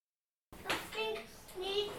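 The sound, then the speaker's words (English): Children talk in the background after half a second of silence, in a few short, faint utterances. “and if you hear my kids in the background, they just woke up”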